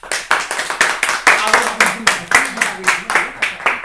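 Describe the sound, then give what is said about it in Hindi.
Conference audience clapping to welcome a speaker at an afternoon session, loud, fast and fairly even in rhythm, with many claps in a row and a voice speaking underneath partway through. “आप लोगों से अनुरोध करूंगा कि आप करतल ध्वनि से उनका स्वागत करें।”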